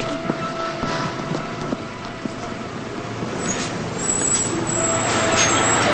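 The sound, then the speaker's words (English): A bus drives onward with a steady engine rumble and road noise, and a few faint knocks and rattles. It grows slightly louder over the last seconds. “Lila gets on the bus. She starts moving to her seat as the bus drives onward.”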